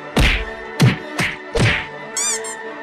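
Four punchy thwacking blows land in a cartoon-style fight sound effect of strikes against a reptile. The blows come at an uneven rhythm, followed by a brief warbling tone.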